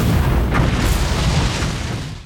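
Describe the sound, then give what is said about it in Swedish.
Rockets launching, used as a sound effect in a documentary trailer, make a loud, dense rumbling roar that holds steady throughout and then tapers off at the very end. “jag tror det var hans raketer vi hörde där i slutet.”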